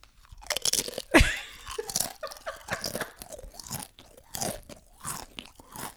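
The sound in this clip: A person imitates someone loudly chewing through a movie, with many wet crunching and munching bursts in an uneven rhythm, fairly loud and with no talking.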